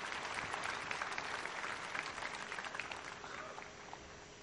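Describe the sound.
Applause from a conference audience at Sony's Paris Games Week 2015 press event: a faint, continuous wash of clapping that stays fairly even and eases off slightly at the close.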